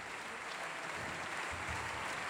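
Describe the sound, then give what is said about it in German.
Opera audience applauds and cheers tenor Peter Hoare in the role of Mr. Brouček, a steady wash of clapping that stays fairly faint throughout. “und großer Jubel für Peter Hoare, den Herrn Brocek.”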